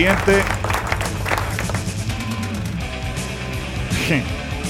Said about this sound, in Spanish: ¡Aplauso!